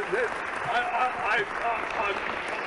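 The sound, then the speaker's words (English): Audience applause and cheering greet a guest arriving on a celebrity show: a dense, steady wash of clapping with whoops rising above it throughout. “I've never had an ovation like that.”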